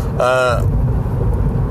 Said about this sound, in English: I am taking a long drive to unwind, because I do that sometimes.